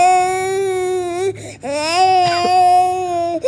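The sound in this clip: A baby crying in two sustained, high, tonal wails separated by a short break, loud and strained, with a wavering pitch.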